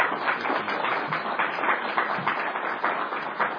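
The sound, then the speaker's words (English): Audience applause at a religious conference gathering, thanking a group of men: a thick, continuous patter of many hands clapping at an even, sustained level. “Ladies and gentlemen, I know these men didn't do it for applause, but please thank them for being”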